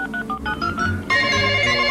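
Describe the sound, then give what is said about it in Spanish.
Electronic telephone tones: a quick series of short beeps is followed by a steadier sustained tone, moderately loud and with no voices over it. “¡Atiende el maldito teléfono!”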